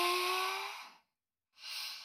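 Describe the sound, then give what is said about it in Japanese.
A deep breath drawn in during a rest break, a loud, airy rush of breath lasting about a second, then a brief silence before breathy noise returns. “ほら、一回深呼吸しましょう。吸って”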